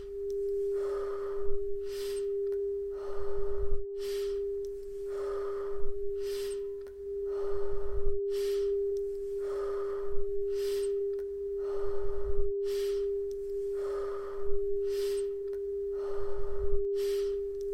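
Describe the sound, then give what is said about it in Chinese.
Slow breathing in and out during a guided breathing exercise is heard as many soft, airy inhale-exhale cycles at an unhurried, regular pace, over a steady sustained tone. “吸气，吐气，吸气，吐气。”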